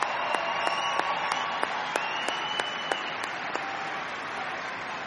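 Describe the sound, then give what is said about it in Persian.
Audience applause for a performer at an evening show with several artists: a steady wash of many hands clapping, with a few sharper, louder claps standing out along the way. “واقعا واقعا یه دست برای بابک.”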